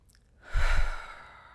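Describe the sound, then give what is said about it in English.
A deep breath taken during a guided mindfulness exercise, a soft airy rush that swells quickly, then slowly fades, heard alone with no talk. “Just close your eyes, take a deep breath,”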